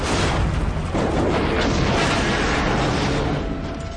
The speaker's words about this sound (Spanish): Al tiempo que Scafaro se desmorona, el helicóptero explota en una gran bola de fuego.